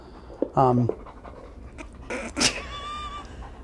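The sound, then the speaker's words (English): A dog pants heavily in quick, rhythmic breaths that continue steadily throughout, at moderate loudness. “it's going to be just heavy breathing in this podcast. And that's not me. It's not me either. No. It's neither of us.”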